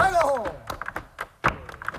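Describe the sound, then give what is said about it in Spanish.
Hands knocking on a table in an early flamenco rhythm: a quick series of dull thunks in a steady beat, with one louder strike partway through. A voice is briefly heard at the start. “las manos para igualmente hacer con golpear una mesa o para tocar las palmas. Esos eran los instrumentos primigenios y el flamenco primigenio, por ejemplo, sonaba así.”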